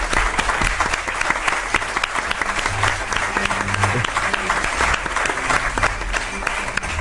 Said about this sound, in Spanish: Un aplauso, le damos a Mariano.